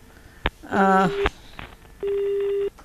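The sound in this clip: Telephone line tones as a caller is connected on a radio phone-in: a click, a buzzy harmonic tone of about half a second, another click, then a steady, fairly loud single tone lasting under a second.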